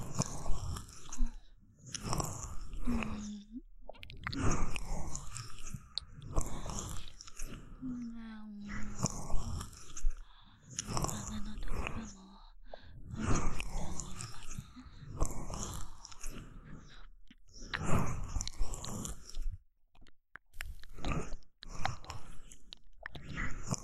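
A mouth chews and nibbles on a soft earlobe, making many wet smacks, nibbles and small bites in an irregular, continuous stream throughout.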